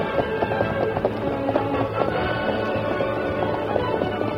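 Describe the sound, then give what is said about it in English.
Galloping hooves of several horses ridden toward a fort at dawn: a fast, steady run of many hoofbeats drumming on without a break, with a held tonal sound running beneath. “Come along. Ride with us toward the fort. Let's go, Don Miguel. Come on, Silver.”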